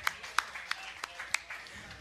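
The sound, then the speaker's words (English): A few sharp, evenly spaced hand claps from one person, crisp and faint, with small gaps between each strike. “Clap for myself.”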